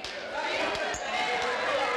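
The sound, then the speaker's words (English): A basketball dribbled a few times by a player preparing a free throw in a women's game: short, dull thuds under talk. “Taking her time with a couple of dribbles, eyes this one up, and splashes that in.”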